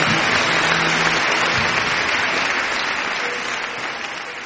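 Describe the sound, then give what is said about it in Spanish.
Loud applause from a crowd honouring someone at a gathering, a dense, steady clatter of many hands that holds level and eases off slightly toward the end. “un fuerte aplauso al Don de los Grandes.”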